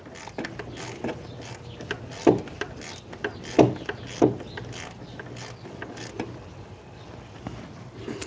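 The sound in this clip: Ratcheting clicks and small mechanical knocks from loosening and removing a belt tensioner bolt, a steady faint stream broken by a few louder knocks.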